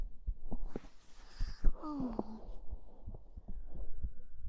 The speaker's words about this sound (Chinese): 主人的心跳是不是跳得很快？ 仔细听哦。